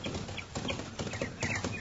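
Galloping horse hooves of an approaching rider in a Western radio drama, a quick, uneven run of many muffled thuds at a fairly steady loudness.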